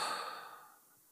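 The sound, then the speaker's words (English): One soft human exhale, breathy and faint, tapers gently into near silence within about a second. “Breathe in. Exhale.”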